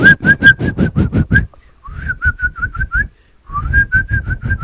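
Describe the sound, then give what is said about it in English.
A person whistles in imitation of a tribe's bird-like jungle call: rapid, short, chirpy notes at one steady high pitch, given in three loud runs of several notes each, separated by brief pauses. “so they just basically do this whistling, which is weird, and it's almost like a dog whistle, like they're whistling for the dog, like, come here boy, type of whistle, but that's their like bird whistle”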